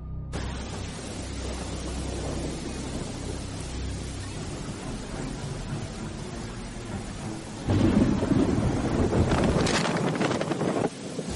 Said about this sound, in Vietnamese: trời mưa như trút nước, những giọt mưa quất rằng rạc trên nóc chiếc xe đang chạy hết tốc độ